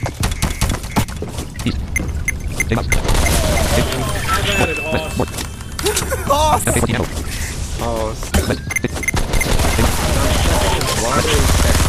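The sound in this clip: Gunfire in a video game rattles in rapid bursts and single shots, loud and dense throughout, mixed with sharp shattering and clinking sounds.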